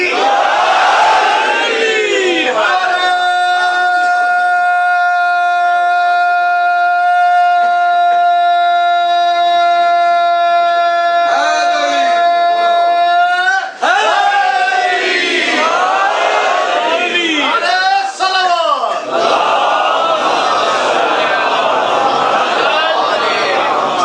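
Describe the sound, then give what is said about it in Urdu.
A crowd chants the Naara-e-Haideri slogan: one long, sustained vocal call rings out, then gives way to loud, massed shouting and cheering from many voices. “نعرہ لگاتے ہیں نعرہ حیدری”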